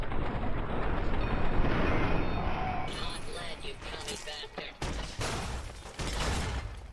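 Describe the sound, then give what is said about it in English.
High explosive grenades blast during a video game fight against attacking robots: a dense, noisy roar runs throughout, broken by a few sharp bursts in the second half. “Let's go high explosive grenades.”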